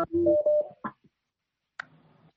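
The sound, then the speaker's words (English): Telephone tones from a call coming in on a call-in line: a few short, steady electronic beeps at differing pitches, followed by a brief burst and a faint low murmur. “I think there's a phone coming in.”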